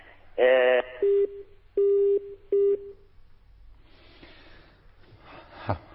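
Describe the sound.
Telephone tones from a call being placed to a caller in Jordan: four steady beeps, the first louder and harsher, followed by faint hissing line noise and a single dull click near the end.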